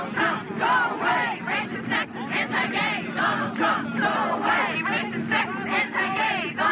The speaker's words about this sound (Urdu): New York شہر کے مشہور کولمبس سرکل میں واقع ڈونلڈ ٹرمپ کی ایک عمارت ٹرمپ ٹاورز کے باہر مظاہرین نے ڈونلڈ ٹرمپ اور ان کی پالیسیوں کے خلاف شدید نعرے بازی کے ساتھ احتجاج کیا۔